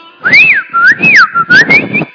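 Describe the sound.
A man whistles a lilting tune, a loud, clear run of rising and falling notes in a few separate phrases with short gaps between them.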